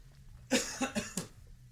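A person coughs from a tickled throat: four quick hacking bursts in a row, the first the strongest, alone without talk.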